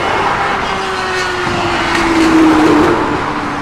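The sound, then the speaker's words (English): Cars revving their engines down a street strip create a loud, continuous drone, with a steady engine whine running through it that swells slightly around the middle before easing again. “That's what happens when the sun comes out. Get lots of idiots trying to rev up down the strip.”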